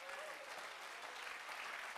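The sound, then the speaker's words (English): Congregation applause at a church district gathering reporting baptisms across Alaska and the Yukon: steady, dense clapping that holds at an even, fairly faint level for the whole stretch. “That's something to clap about. That's something to shout about.”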